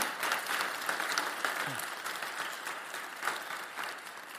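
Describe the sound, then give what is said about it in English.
Church audience applause welcoming a guest speaker to the front, a dense, even patter of many hands that stays fairly faint and steady throughout without a clear peak. “Would you put your hands together and offer a very warm Redeemer welcome to Prajakta?”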